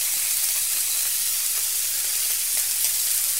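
Steak sizzling as it fries in a pan, a loud, steady hiss that runs throughout with a few faint crackles under it.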